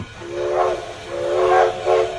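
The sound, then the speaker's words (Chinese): A train whistle sounds in the distance, giving three breathy, hissing blasts over a steady background hiss. The second blast is the longest. “这时列车的汽笛声从远处传来，四位父亲同时望去，车头已经出现在大家的视线里了。”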